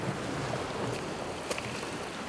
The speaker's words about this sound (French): Jeu du ressac des vagues.